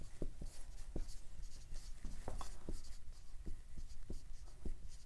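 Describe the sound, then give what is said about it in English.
A pen scratches out a diagram during an explanation: many short, faint strokes and squeaks in an irregular rhythm, with no talking. “So let me just graphically draw it out for you.”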